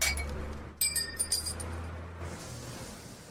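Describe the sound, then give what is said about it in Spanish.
Glasses clink together in a celebratory toast. A few bright, ringing chimes come in quick succession over a steady low hum, then fade into a softer background. “Pues vamos a celebrarlo. Sí, ya, vamos a brindar, dale.”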